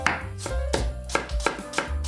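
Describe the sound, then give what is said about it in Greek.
A knife slices Zagorin apples into thin slices or matchsticks, giving a steady series of crisp strokes about a third of a second apart, each a sharp cut followed by a soft thud. “Κόβουμε εξαιρετικά μήλα ζαγορίν σε λεπτές φέτες ή σπιρτόξυλα.”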